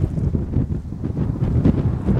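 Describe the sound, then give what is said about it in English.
Strong wind blows and buffets the microphone, producing a heavy low rumble with uneven gusts throughout. “Now the wind is really picking up.”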